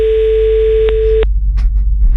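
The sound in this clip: Telephone ringback tone on a call back to someone: a steady, buzzy tone that breaks off once, resumes briefly and stops after about a second, followed by a few faint noises.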